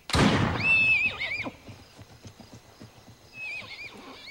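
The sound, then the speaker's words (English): A colt neighs loudly, then its hooves beat in a quick galloping rhythm before a second, shorter whinny rings out near the end. “The colt bolts, galloping over the brow of a hill.”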